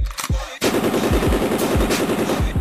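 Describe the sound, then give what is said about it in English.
Machine gun fire sound effect: two sharp opening shots, then sustained rapid automatic fire with a loud, steady, rattling rhythm of repeated heavy reports. “Let us get some machine gun noises.”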